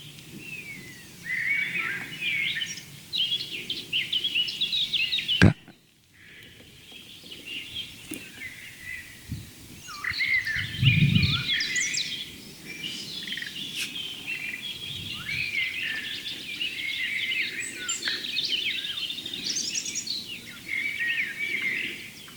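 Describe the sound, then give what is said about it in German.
Blackcap song: bright, rapid, blackbird-like fluting phrases in a steady run of high chirps and warbles, with one brief dull thump partway through and no voices. “Das helle, amselartige Flöten, schnell vorgetragen von der Mönchsmücke.”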